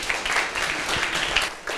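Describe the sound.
Students in a classroom clap for a classmate who answered a maths question correctly, a dense, steady patter of many hands lasting throughout without pause.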